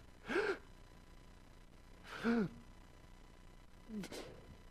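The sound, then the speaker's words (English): A person takes three slow, deep inhalations, each an airy, partly voiced rush that swells and fades, separated by quiet pauses and faint overall. “I'm going to continue to inhale. I want everything in here.”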